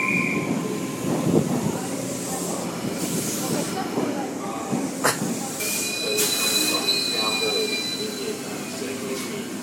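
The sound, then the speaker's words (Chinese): Train at a railway station: a steady rumble and hiss with high squealing wheel tones rising out of the noise in the second half. “过了这条行人隧道到火车站的了，快点走吧。”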